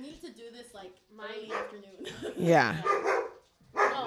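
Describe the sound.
A dog barks, yips and whimpers in a run of strained, voice-like bursts with wavering pitch. There are short pauses between the sounds.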